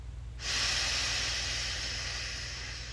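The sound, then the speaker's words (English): A single deep breath in, starting abruptly after a brief quiet moment and continuing as a strong, steady airy hiss that eases off slightly toward the end. “Let's take a final breath in,”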